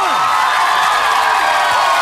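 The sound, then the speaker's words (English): Crowd cheering wildly, a loud, dense roar of voices and whoops that keeps going without a break, with high sliding whistle-like cries rising above it. “And the crowd goes wild.”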